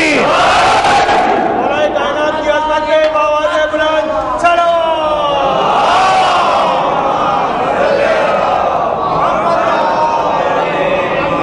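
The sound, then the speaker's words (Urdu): A crowd loudly chanting the Haidari slogan in unison during a religious sermon, many voices joining in strong, sustained collective shouts that rise and fall in waves. “علی کا نام بلند کرے, نعرہ حیدری حیدری.”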